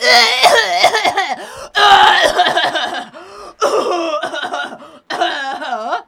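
Coughing and throat clearing from someone with something caught in the throat: loud, strained, strongly voiced hacks and gravelly rasps come in several sustained bursts separated by short pauses.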